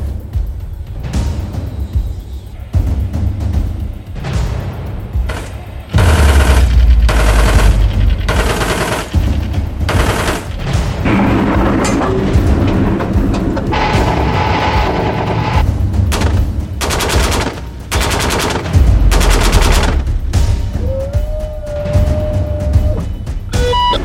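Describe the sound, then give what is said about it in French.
Gunfire on a shooting range firing line: many loud, sharp shots, some fired singly and others in rapid bursts, continuing throughout with short pauses between volleys. “Alors, on s'est mis au niveau du pas de tir. Ouais. Est-ce que t'es stressé? Ouais, mais vraiment. Vraiment stressé. J'ai peur d'être sourd malgré le casque.”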